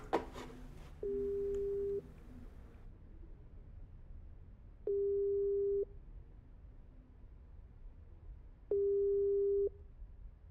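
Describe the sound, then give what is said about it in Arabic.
Ringback tone while a phone call is being placed: three steady, mid-low tone pulses of about one second each, separated by evenly spaced silent gaps of roughly three seconds. “طب رن رن عليهم. طيب هيني برن خليك معي على الخط.”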